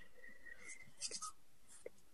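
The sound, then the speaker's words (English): Faint, scratchy scribbling as green colour is drawn up and down to make grass, a few short strokes at low volume with no talking. “I'm just going up and down, side by side, and then making the grass.”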